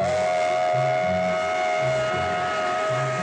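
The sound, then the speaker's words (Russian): A train whistle sounds as a train pulls away through a snowy forest: one sustained, steady high tone holds throughout over low, uneven rumbling from the moving train. “Поезд набирает ход среди заснеженного леса.”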